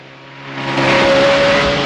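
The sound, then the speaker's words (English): Motorboat engine in a James Bond film chase as Bond speeds through bayou vegetation, swelling from a low hum into a loud, sustained roar that stays strong to the end. “and jumps into a boat on the bayou. His two pursuers get to their feet but can't get a clear shot. On the bayou, Bond slaloms through the vegetation.”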